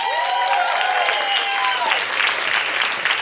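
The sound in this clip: Audience applause for a comedian being welcomed onstage at a stand-up show: steady, loud clapping throughout, with some cheering voices rising above it early on.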